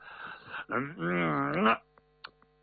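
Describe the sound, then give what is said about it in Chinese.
A storyteller's voice imitates snoring: a breathy rasping intake, then a long, low, voiced rumbling groan, followed by a few faint short clicks. “你看这位多有出息，说睡呼噜出来了。”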